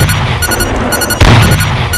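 A tank cannon fires standard shells in a video game: a single heavy boom about midway through, over a continuous dense rumble.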